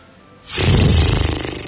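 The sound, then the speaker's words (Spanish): A person imitates a horse snort with a single loud, breathy blast of air that breaks into a fluttering lip vibration, preceded by a short quiet moment. “Pero aquí hoy nos referimos al resoplido equino, ya lo dijimos. El que suena más o menos así.”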